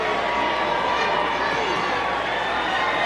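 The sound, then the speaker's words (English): Baseball stadium crowd noise as fans do the wave during a 1-0 game in the fifth inning: a dense, steady roar of many voices that holds at an even level throughout. “That noise is just the fans doing the wave.”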